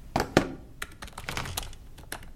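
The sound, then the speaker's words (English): Someone types on a laptop keyboard while walking, producing irregular, quick key clicks. Two sharper taps stand out near the start, followed by a looser scatter of lighter keystrokes. “Why are you typing on a laptop whilst walking?”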